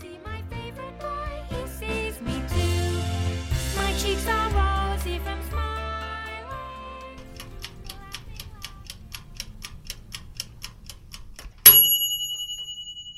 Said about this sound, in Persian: صدای زنگ گاز من میاد، صدای زنگ گاز میاد، وقتشه که نودلا رو آبکش کنم.